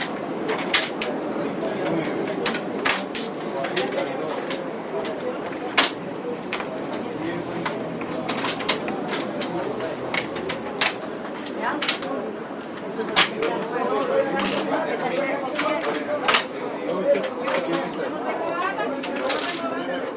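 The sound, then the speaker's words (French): Domino tiles clack sharply on a table during a game in a Miami park with a Cuban community. Many crisp, irregular knocks come throughout, under a continuous murmur of chatting voices. “Alors les auditeurs se demandent probablement quel est le bruit qu'on entend. Pour vous, il est familier puisque c'est celui du domino, de la pièce de domino sur une table.”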